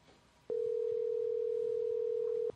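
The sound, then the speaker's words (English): Ringback tone of an outgoing telephone call: one steady electronic tone at constant pitch holds for about two seconds, then cuts off, over a low background hiss. “All right, let's call him.”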